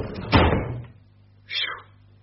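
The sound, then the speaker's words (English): A cupboard door slams shut as characters hide inside, one sharp, heavy thud that fades quickly, with a softer brief sound a moment later. “Quick, let's hide in this cupboard.”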